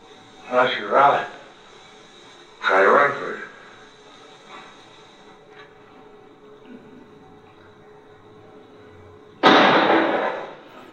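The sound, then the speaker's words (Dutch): A single loud gunshot rings out in a film scene where a man is shot in the back, cracking sharply after two short bursts of dialogue and a quiet pause, then fading quickly. “Dus die schiet hem dus in zijn rug.”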